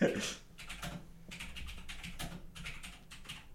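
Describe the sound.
Quick, irregular tapping on a computer keyboard as a search is typed, with soft, faint clicks in uneven bursts.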